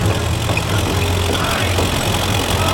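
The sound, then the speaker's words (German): A car engine runs with a steady, low, even rumble as the car drives off toward a new workshop at a dye factory, heard alone without talk. “Jetzt fahren wir gleich zu Ihrer neuen Werkstätte in den Farbenfabriken.”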